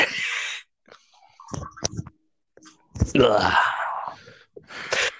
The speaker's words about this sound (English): It must have been a pretty hard poop for you to groan like that.